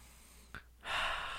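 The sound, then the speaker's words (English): A deep breath: a brief sniff, a short pause, then a long, steady, airy inhalation that stays soft and sounds on its own. “So I'm going to take a deep breath.”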